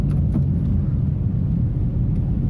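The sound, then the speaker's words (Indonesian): Steady low rumble from inside a moving car on a slow road, an even, continuous drone with no talk over it. “Ini kita lagi di jalan kan. Depan nih lama banget jalannya.”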